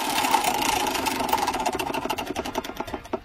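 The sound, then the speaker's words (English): A prize wheel spinning in a game, its clicker rattling in a fast, dense stream that gradually slows into separate ticks as the wheel loses speed, fairly faint and alone. “Let's spin the wheel.”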